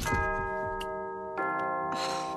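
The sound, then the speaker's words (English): A doorbell at a manor, rung on the night of a Halloween dance, chimes in two struck tones, the second sounding partway through. Each leaves a quiet, sustained bell-like ring that lingers and overlaps. “And then the doorbell rings.”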